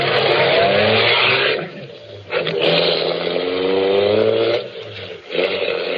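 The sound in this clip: A car engine running as the car is driven, giving a loud, steady droning hum whose pitch shifts slightly, with two short dips in level.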